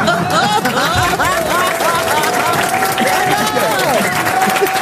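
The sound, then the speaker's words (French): Studio audience applauding and cheering during a game show, with steady loud clapping, scattered whoops and cheering voices throughout. “Le public vous aide et acclame Christophe Beaugrand.”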